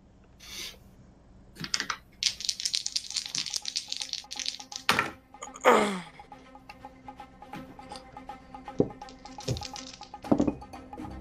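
Dice roll for initiative in a tabletop game: scattered bursts of small clattering and clicking as dice tumble across a surface, with sharp taps and short rattles in uneven spurts and quiet gaps between them.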